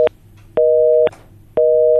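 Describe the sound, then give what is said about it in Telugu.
A telephone busy signal after a listener's call to a phone-in line is cut off: a steady mid-pitched tone that switches on and off in regular half-second beeps, with no voices. “మరి శ్రోత call అయితే cut అవుతుంది.”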